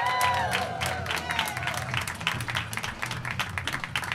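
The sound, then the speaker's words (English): Studio audience applause greeting a guest, many sharp overlapping claps forming a lively, even wash, with a voice briefly heard over it at the start. “Can you please give them all the applause?”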